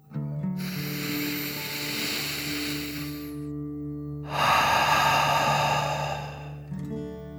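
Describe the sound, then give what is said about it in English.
A deep breath drawn in and then let out, part of a calming relaxation exercise for children: two long, soft breathy rushes, the second slightly louder, over low sustained tones. “So let's take one final deep dragon breath in and out.”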